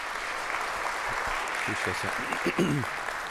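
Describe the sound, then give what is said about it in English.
Audience applause welcoming a pastor, a steady, fairly soft patter of clapping that runs the whole way, with a voice talking over it in the second half. “So would you join me in giving a warm welcome, Brandywine welcome to Pastor Hubert.”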